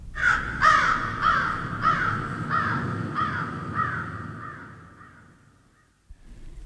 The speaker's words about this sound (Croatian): Gavran. Gavran. Da. Gavran.